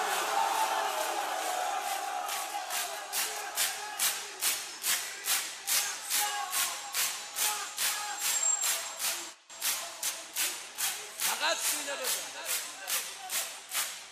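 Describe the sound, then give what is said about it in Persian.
Rhythmic chest-beating by a crowd in a mourning ritual: many loud, evenly spaced slaps at a steady beat, briefly broken near the middle before resuming, with crowd voices beneath. “این صدای سینه زدن خاریه به چشم دشمن های امیرالمومنین”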